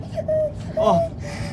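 A young child, being carried with a lodged foreign object, cries in two short, high, wavering whimpering wails.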